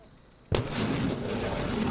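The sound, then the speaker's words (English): American artillery fire in Taiwan breaks a quiet start with one sudden, sharp blast, which turns into a loud, sustained rumbling roar. “In Taiwan, the military prepares for war with American artillery designed to sink Chinese invaders.”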